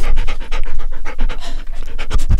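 An older, heavyset shepherd-husky mix of about 65 pounds pants loudly and steadily, its quick breaths in and out running close together without a break.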